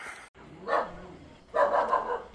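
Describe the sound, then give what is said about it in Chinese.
A dog barks at night in a mountain village, giving a short bark and then a longer burst of barking, fairly faint and with no other sounds. “一声狗叫，一束微光，晚上九点三河村到了。”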